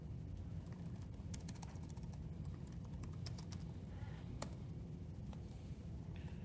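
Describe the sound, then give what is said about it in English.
SQL being typed on a computer keyboard, heard as scattered sharp clicks at an uneven pace over a steady low hum, with no talking. “If I can type my SQL correctly.”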